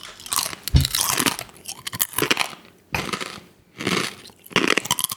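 Crunching bites and chewing of a whole, unflavored scorpion, with several loud, dry, crackling bursts separated by short pauses and no talk.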